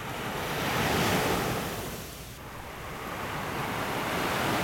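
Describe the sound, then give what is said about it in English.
Ocean waves wash onto a beach in Alexandria, Egypt: a steady rushing roar of surf that swells, eases into a brief lull, then builds again, with wind noise over the microphone and no voices. “So I was down at the beach there, here in Alexandria at the Africa Cup of Nations.”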